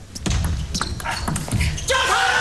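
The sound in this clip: A table tennis ball being served in a competitive match: several crisp, sharp clicks of bat and ball on the table, with a commentator talking over them.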